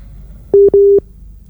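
Two steady, mid-pitched beeps of a telephone busy tone, sounding when a call fails to connect. They come close together with a short gap, the second slightly longer, loud over a quiet background.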